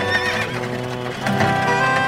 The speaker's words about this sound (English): a beautiful coach with 4 horses and drove back to the old man